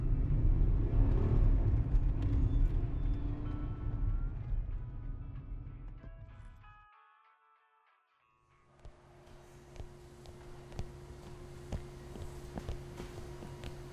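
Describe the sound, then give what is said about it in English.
A car driving off: a deep engine rumble starts loud, then fades away over several seconds to near silence. Afterwards a quieter steady hum returns with scattered light clicks. “Let us make haste with the pedal and the motor and the vrooming.”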